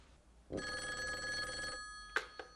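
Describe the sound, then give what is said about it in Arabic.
A telephone bell rings in an Egyptian Arabic radio drama: one sustained, bright metallic ring lasting about a second. Two short sharp sounds follow after a brief pause. “ايوه موجود يا فندم، عادل تليفون علشانك.”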